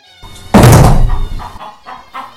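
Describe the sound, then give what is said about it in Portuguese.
A heavy thud as a big wolf slips and takes a great tumble: one loud, booming impact with a rumbling tail lasting about a second, then fading into a few faint, softer knocks. “Tenta deter os amigos, mas escorrega. E dá um grande trambolhão.”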